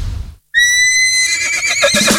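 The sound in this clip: A loud, high horse whinny bursts in after a brief silence, holding a strong tone before breaking into a shaky, quivering finish.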